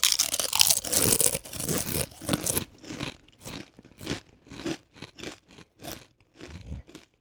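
Crunching of Doritos tortilla chips in wasabi, grilled and spicy nacho flavors: a dense stretch of loud crisp crunching, then many separate sharp bites and chews in an uneven rhythm.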